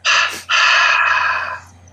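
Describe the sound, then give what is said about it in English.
A deep exhale during a breathing exercise, letting all the air out. A short breathy burst leads into a longer, voiced, sighing release that trails off at the end. “This last one, let all the air go.”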